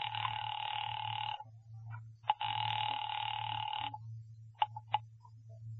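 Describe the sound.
A telephone rings while a call to the police is being placed: two long, steady electronic bursts with a pause between them, followed by a few short clicks over a constant low hum.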